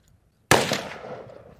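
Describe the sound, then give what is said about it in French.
A single loud gunshot is fired at a pinpoint headshot target during shooting training: one sharp, abrupt crack followed by a long, gradually decaying tail. “Now he's firing on the pinpoint target. He's firing on the headshot.”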